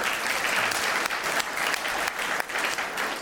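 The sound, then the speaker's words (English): Audience applause at the end of a lightning round in a panel discussion. Dense clapping holds steady throughout, with a few brief dips in loudness. “That's the end of our lightning round. Let's give them a round of applause for”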